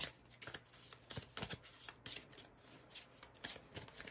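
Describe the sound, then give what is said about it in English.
Tarot cards shuffled and handled while one is drawn from the deck, a run of many quick, crisp papery riffles and slaps in an uneven rhythm, with no talking. “I'm going to pull a card here.”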